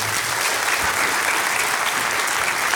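Audience applause welcoming the head of the Kaunas Žalgiris basketball club as a guest: dense, steady clapping from many hands that holds at an even level throughout.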